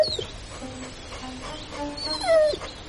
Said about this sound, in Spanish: El perro la contempla desde la distancia.